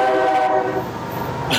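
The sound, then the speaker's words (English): A freight locomotive horn sounds in a hangar, a loud sustained chord that fades into a rumbling, hissing drone with a brief burst of hiss just before the end. “So I take it you heard that. There's a locomotive in the hangar. Heard what? It's a freight.”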